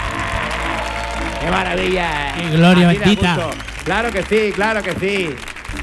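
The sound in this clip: Live studio audience cheering and applauding at a show recording, a steady wash of clapping and crowd noise running beneath an excited voice shouting loudly throughout.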